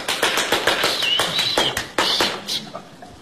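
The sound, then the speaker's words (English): Audience hand clapping at a ballroom dance championship final: a rapid, evenly spaced series of sharp claps, about three per second, loud and continuous throughout. “people clap their hands and make a lot of noise”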